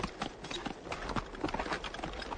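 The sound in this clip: Hooves of a horse clip-clopping at speed in a battle scene, a rapid, steady patter of sharp hoof strikes over a dense, noisy background.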